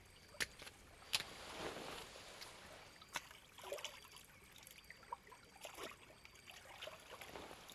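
Hot water splashing and trickling while someone's back is washed in a bath, faint and continuous, with a few sharper splashes and drips scattered throughout.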